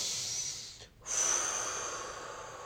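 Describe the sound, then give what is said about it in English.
A deep breath, soft and airy: a long inhale, a brief pause, then a long exhale that trails off, with no talk. “Now, I'm going to take a deep breath. Everyone take a deep breath.”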